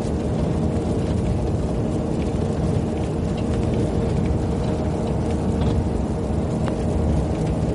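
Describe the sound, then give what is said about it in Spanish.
A bus drives along a long two-way road with a steady low rumble of engine and tyres. The sound stays continuous and even throughout, with no voices. “El autobús circula por una larga carretera de doble dirección.”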